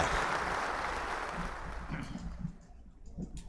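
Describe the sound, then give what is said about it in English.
A played soundbite of crowd applause: busy clapping that thins out and fades after about two seconds, leaving only faint low sounds. “Oh, that's how you compare our claps. I'm sorry. Here's the applause.”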